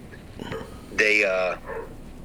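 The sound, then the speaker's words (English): Dogs barking excitedly at home as children arrive, one loud, drawn-out yelping bark rising briefly above faint background talk. “My kids are apparently home because the dogs are going nuts, if you can hear.”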